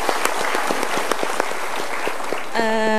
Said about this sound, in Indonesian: Dari Pemalang, kita berikan tepuk tangan.